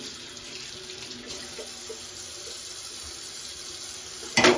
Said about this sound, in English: I'm just going to move over to the sink. So get rid of that onion that's on my hands.